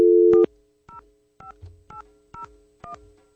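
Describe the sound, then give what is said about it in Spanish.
A telephone number is dialed on a keypad: a steady tone followed by five short dialing beeps at an even pace, each a brief two-note tone, with no talk. “¡Ay, se me fue un número de más! A ver, vamos a marcar nuevamente.”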